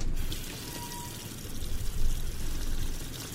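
Water running from a sink tap, a fairly faint, continuous rushing and splashing flow that swells slightly in the middle and stays steady without voices.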